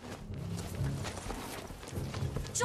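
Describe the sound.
Horse galloping through water, with splashy, rapid hoofbeats in a steady driving rhythm, a broad churning wash throughout at moderate level, and no voices.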